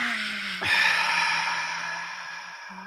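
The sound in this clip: A deep inhale taken during a guided breathing moment: a sudden airy rush that swells quickly and then thins out gradually over about two seconds, heard alone over a low steady hum.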